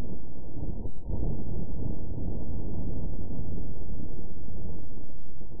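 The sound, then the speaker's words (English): Martian wind picked up by the NASA InSight lander's seismometer, a deep, continuous rumbling buffet, muffled and steady with one short dip near the start. “That is the first wind recording of wind sent back from another world, isn't it, Omer? Yeah, that's right. And it's not actually from a microphone. It's from a device called a seismometer. This is what's on the NASA InSight probe that they're using to study Mars's geology,”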